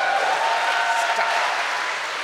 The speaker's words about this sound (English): Thanks but, for the applause, everybody.